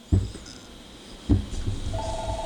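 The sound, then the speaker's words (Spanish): Telephone ringing with an incoming call: two dull thuds, then a steady pulsed ring tone that starts near the end. “Así que, anyways, déjame coger esta llamadita.”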